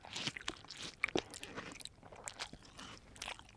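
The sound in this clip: Someone chews a piece of orange. The sound is quiet: wet, crunchy bites and soft squishes come in an irregular rhythm, with no talking.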